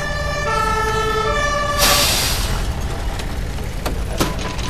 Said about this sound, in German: Ich höre schon die Feuerwehrsirenen. Da kommt die Feuerwehr ja endlich.